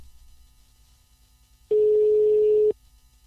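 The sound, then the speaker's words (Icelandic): A telephone call being placed gives a single steady electronic tone lasting about a second, low and even in pitch, rising out of faint background hiss and cutting off cleanly. “Þá ætlum við að hringja símtal.”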